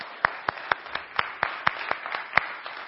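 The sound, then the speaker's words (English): A church audience claps for its worship team and choir. The claps are crisp, evenly spaced, and fairly faint, coming at about four per second with a steady rhythm. “Let's give the worship team, the choir, Stephen and Elaine a hand.”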